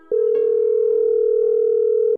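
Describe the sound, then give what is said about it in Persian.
Steady telephone tone heard as someone phones a parent: one unbroken mid-pitched tone of about two seconds, loud and even, with no voices over it. “اون منو مجبور کرد که به پدرم تلفن بزنم.”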